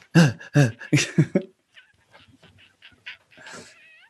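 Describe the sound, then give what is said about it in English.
A voice imitates a cat's chirp with a quick run of several short, high, yipping chirps, followed by fainter, softer chirping sounds. “that's the cat chirp, by the way.”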